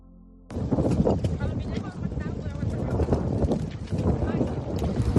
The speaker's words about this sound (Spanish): El viento, lo estás escuchando, soplaba con fuerza.